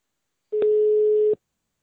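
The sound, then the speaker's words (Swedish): A single steady telephone tone, as when calling someone, holds one even pitch for under a second, with faint clicks at its start and end. “men jag tror vi ska inleda med att ringa till Hagren.”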